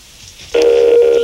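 Telephone tone as a number is dialed: a loud, steady electronic tone begins after a short quiet stretch, with a brief break partway through.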